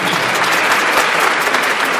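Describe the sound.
An audience applauds at a classical music concert: dense, steady clapping that continues without pause at an even, fairly loud level, with no talking.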